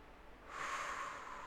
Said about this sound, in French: J'inspire et je suis conscient de mon inspiration.